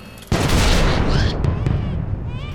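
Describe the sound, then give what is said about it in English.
A heavy blast erupts as a Lehman Russ battle tank and escorting guardsmen open fire. A sudden loud onset turns into a sustained rumbling roar, with a few sharp cracks cutting through it. “It's an armored convoy, a Lehman Russ battle tank with an escort of guardsmen. Enemy sighted! Open fire!”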